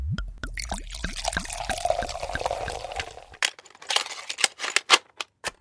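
Liquid is poured as a drink during a celebration, a steady splashing stream lasting a few seconds, followed by a series of sharp, crisp clicks and knocks.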